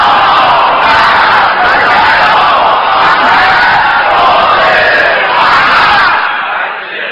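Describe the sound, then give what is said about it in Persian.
A crowd loudly reciting a salawat in unison, a dense, sustained roar of many voices held for several seconds before tapering off at the end. “برای سلامتی خودتون و هدیه به پیشگاه حضرت حجت ابن الحسن یک صلوات بلند”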